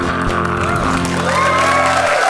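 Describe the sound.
Audience applause: a dense, continuous wash of clapping that stays loud and steady throughout, with crowd voices mixed in.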